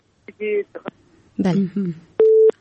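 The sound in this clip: Telephone tone after a call is disconnected: two short steady electronic beeps, one early and one at the end, with brief voice sounds in between.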